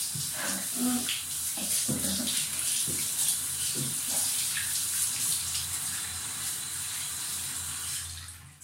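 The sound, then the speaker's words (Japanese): Water rinsing soap foam off the body, a steady hissing stream of running water broken by irregular splashes and drips. It continues evenly, then fades at the very end. “泡も流せたかな。”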